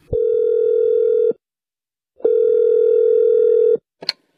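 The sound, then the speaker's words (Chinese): Telephone tone heard while calling a renovation company: two long, steady, loud tones separated by a pause, followed by a short click. “哎，别急别急，我呀给装修公司打一电话问问。”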